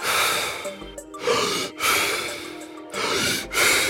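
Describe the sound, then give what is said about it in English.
Deep, fast breaths taken as part of a breathing technique: loud, rushing in-and-out breathing repeated in a quick, steady rhythm. No one talks. “the breathing is essentially, 30 deep, fast breaths. It sounds a little bit like this”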